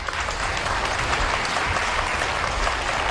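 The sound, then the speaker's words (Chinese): Audience applause as a guest is called up onto the stage, a dense, sustained clapping of many hands that stays even and loud for about three seconds. “掌声鼓励，掌声啊，掌声鼓励！”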